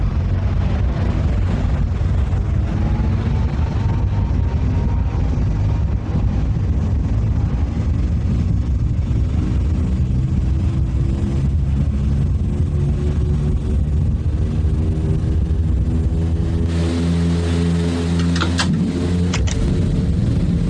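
An airliner takes off from a runway with a loud, continuous engine roar. Its tones climb slowly in pitch throughout, and no voices are heard.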